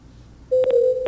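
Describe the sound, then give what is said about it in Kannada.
A telephone line tone after a dropped call cuts in abruptly and holds one steady pitch, with a few short bursts over it. “ಬಹುಶಃ ಕರೆ cut ಆಗಿದೆ ಅಂತ ಭಾವಿಸ್ತೀನಿ.”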